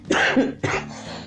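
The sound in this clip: Two harsh coughs from a person with a sore throat, each a sharp burst with a short rasping tail, separated by a brief pause and heard alone without talk.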